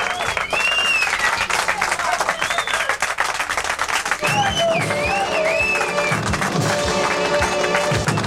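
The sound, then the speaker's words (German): Recorded applause jingle played on a German radio show: loud, continuous clapping mixed with cheers and whistles, running at full level for the whole stretch. “Und mein Beifallsjingle geht endlich wieder nicht, aber jetzt nochmal.”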